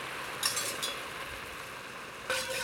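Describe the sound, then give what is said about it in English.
A utensil scrapes the bottom of a pan while it is deglazed with beef broth. A few brief scraping and clinking strokes stand out over a quiet background of faint sizzling. “Okay, that should be good. I've loosened up all those wonderful, flavorful particles in the bottom of the pan.”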